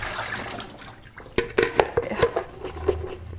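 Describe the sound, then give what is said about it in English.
Water washes over bean sprouts being rinsed in a salad spinner: a low running wash, then several sharp taps, splashes and drips, with no talk. “Just put the bean sprouts in my salad spinner and give them a rinse.”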